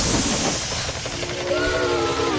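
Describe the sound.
A toy train set gives off a steady, steam-like hiss that fills the whole clip, and a thin whistling tone joins in over the second half.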